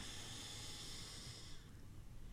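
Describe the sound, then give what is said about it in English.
A slow breath in through the nose during a relaxation exercise, a soft, steady, airy hiss that holds for about one and a half seconds before thinning out; very quiet. “We're going to inhale through the nose”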